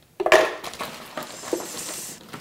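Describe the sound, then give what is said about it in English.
Ice cubes tumbling into a blender, a cup of ice for a vegan mocha frappuccino: a loud rattling clatter followed by a few smaller, scattered clinks and knocks. “let's get down to making our healthier, thriftier, vegan mocha frappuccino today. So we're going to start with a cup of ice in your blender.”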